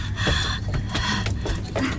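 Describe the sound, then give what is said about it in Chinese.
Labored, difficult breathing of an elderly woman in a hospital ward bed: loud, rhythmic rasping breaths with snorting gasps, repeating several times in a strained pattern. “阿妈，哎呀，呼吸不顺是不是？”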